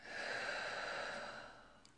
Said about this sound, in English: let's just take a big deep breath in and breathe out.